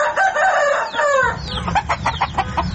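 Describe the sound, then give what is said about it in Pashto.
Hens and roosters, up to about ten birds, roaming an old run-down courtyard: a rooster crows loudly for about a second, then quick, choppy clucking follows. “تر لسو پورې چرګې چرګان پکې ګرځي.”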